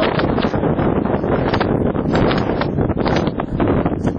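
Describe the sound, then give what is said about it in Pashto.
Desert wind blows dust across open ground in Helmand, a dense, steady roar of gusting air buffeting the microphone with no break and no clear voices. “پر دې دښته باد او دوړو د هغه سرتیرو چیرې وراړولې دي چې د لارې د خلاصولو په عملیاتو بوخت دي.”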